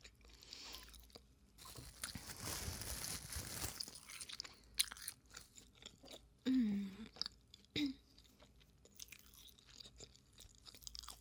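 Chewing during a meal: soft, irregular crunching and mouth sounds run through the whole stretch, faint overall, with a few louder bursts in the later part.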